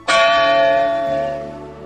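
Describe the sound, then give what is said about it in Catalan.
A church bell rings a single chime, a loud bright strike with rich ringing overtones that slowly decays as the tone hums on. “sona una altra campanada”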